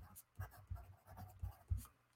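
A pen writes labels on paper for art resist samples, producing a few short, faint scratching strokes separated by brief pauses.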